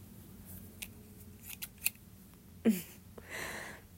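Scissors snipping through fabric pants in a few soft, sharp cuts spaced irregularly, with a longer rasping cut near the end. The snips are faint and heard alone, with no voices.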